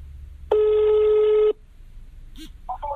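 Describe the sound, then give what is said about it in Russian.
A telephone call being placed: a single steady telephone tone lasting about a second, then after a short gap a couple of brief electronic beeps. “Звоним Веронике, рожденной в городе Нукус.”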